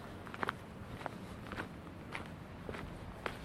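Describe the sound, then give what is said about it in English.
Footsteps walk down a coastal path on the Gower toward Worm's Head, a steady series of faint, evenly spaced steps over a quiet outdoor background. “So we made it to the Gower. So we're now just walking down the path towards Worm's Head.”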